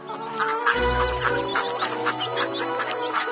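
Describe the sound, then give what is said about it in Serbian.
Startled chickens, ducks and geese squawking in alarm, a busy jumble of clucks and harsh cackling calls overlapping at a fairly steady loud level throughout. “Sve kokoške, patke i guske poskakaše preplašeno iz svojih gnezda. Nasade komešanje, buka, vika i cika.”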